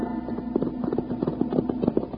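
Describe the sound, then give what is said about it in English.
Horses' hooves clip-clop as riders come into a little cow town, a steady run of many quick, rhythmic hoofbeats over a low, constant hum. “Within an hour after they left Rhodey and Monk at the cave, Wild Bill Hickok and Jingles rode into the little cow town of Danville looking for Sheriff Blake.”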